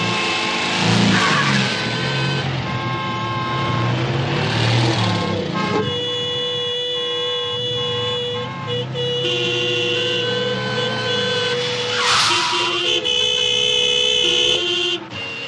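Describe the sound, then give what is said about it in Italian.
Car horns blaring in a huge traffic jam, with several overlapping sustained honks and short toots over a steady rumble of engines, loud and continuous throughout. “Ecco, vi abbiamo fatto ambientare. Esatto, speriamo a nessuno siano saltati i nervi con clacson. Siamo in questo enorme, enorme, ve lo dovete immaginare, enorme ingorgo.”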